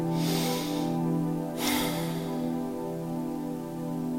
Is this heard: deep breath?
yes